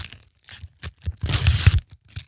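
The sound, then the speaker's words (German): A pack of World Cup football trading cards is torn open in bursts of crinkling and ripping wrapper, with a longer, louder tear in the middle between shorter rustles. “Aber die Karten, das ist irgendwie cool. Wir machen es schon auf, oder?”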